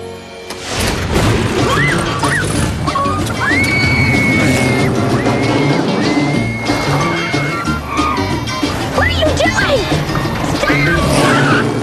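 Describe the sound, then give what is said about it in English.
Car tires squeal as a car screeches into a mechanic's garage, several rising and falling shrieks over a loud, dense, continuous mix of other sounds with occasional sharp impacts. “Maggie screeches into a mechanic's garage.”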